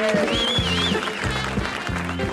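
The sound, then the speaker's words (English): Standing ovation for Colonel Sanders on a televised Christian talk show, a steady wash of crowd clapping mixed with music and sustained tones, with a thin gliding whistle-like pitch rising above it. “The Colonel got a standing ovation, by the way.”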